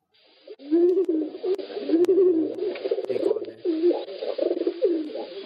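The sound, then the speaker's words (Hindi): Pigeon cooing: a continuous run of low, throaty, warbling coos in a rolling, repeating rhythm, fairly loud and sustained with hardly any pauses. “कबूतर कबूतर है”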